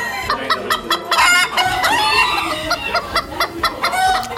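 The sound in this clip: Roosters crowing at a crowing contest, several loud, overlapping cock-a-doodle-doo calls in quick succession, with clucking from other fowl in between.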